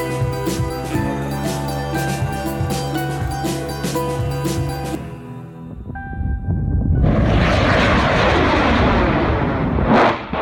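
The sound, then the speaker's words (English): A homemade rocket lifting off in March 2018 gives a loud, broad rumbling roar that swells in and holds steady after a stretch of music fades out. “That's the sound of Mad Mike Hughes lifting off in March 2018 in his homemade rocket.”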